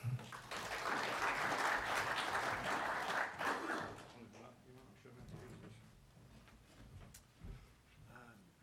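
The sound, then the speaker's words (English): An audience applauds to welcome a speaker at a company presentation. Dense, steady clapping holds strongly for about four seconds, then thins out and fades into a few scattered claps. “How about a warm welcome for David Pitchford?”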